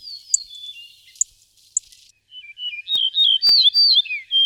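A bunting sings. A few sharp high chirps sound over a faint thin whistle, then a loud run of varied, sliding whistled notes follows in quick succession.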